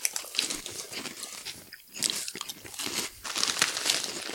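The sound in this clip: Crisp crunching of vegan krupuk, imitation prawn crackers, as many quick, fairly faint bites and chews come in uneven bursts.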